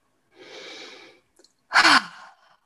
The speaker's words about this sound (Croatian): Napravi udah na nos, izdah na usta.